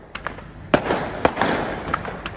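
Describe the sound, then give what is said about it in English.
Fireworks going off in a series of sharp pops and bangs at irregular intervals, with two louder cracks standing out among several quicker, lighter bursts. “The fireworks don't just light on fire and then start. You have to do something. It's on fire because the car lit on fire.”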